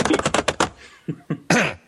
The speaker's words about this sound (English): while the tappity, tappity, tappity goes on the keyboard